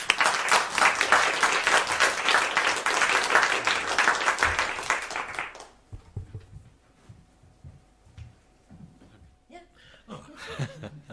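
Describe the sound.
An audience at an evening lecture event at the LSE applauds to welcome guest speakers, loud sustained clapping that cuts off after about five seconds, after which a voice begins speaking.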